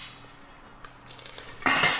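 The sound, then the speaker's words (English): Corn kernels are poured into a pot of hot oil just taken off the heat: a quick clink, then a scattered rattling patter of kernels against metal and a louder rush at the end. “Now what I'm going to do is I'm going to take the whole pot off the heat, pour in the rest of the corn kernels,”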